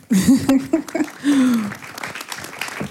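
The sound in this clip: An audience applauds a speaker at a talk. A speaking voice carries over the steady patter of clapping, which rises and then thins out.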